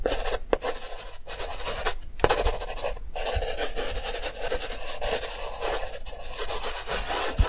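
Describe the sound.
A sketch artist drawing on paper makes continuous dry, scratchy rubbing strokes in a steady, fairly quiet stream, with no talk over them.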